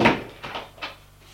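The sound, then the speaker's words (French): A small wooden door opens in three soft, short wooden clunks that come in a steady sequence and fade out quietly. “Il l'amène au fond de la pièce, où se trouve une petite porte de bois. Il ouvre, entre.”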